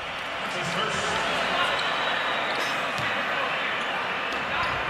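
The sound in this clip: Basketball dribbled low during a game as the ball handler brings it across the timeline, with bounces buried under loud, continuous crowd noise and commentary.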